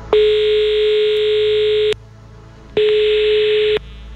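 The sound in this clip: A telephone line tone sounds after a call is hung up: two long, steady, buzzy tones, each about two seconds, separated by a brief silence.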